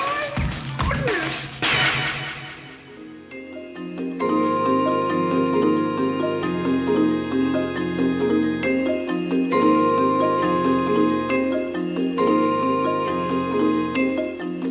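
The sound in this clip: Minimalist music from 1973 for mallet instruments and voices plays with rapid, repeating pulsed mallet patterns over sustained tones. It stays steady and continuous after a brief noisy burst at the start.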